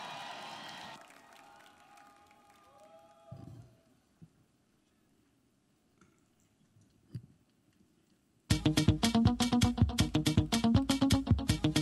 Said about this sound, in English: Please give it up for the Greater Love Gospel Choir.